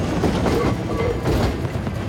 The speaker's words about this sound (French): le tramway!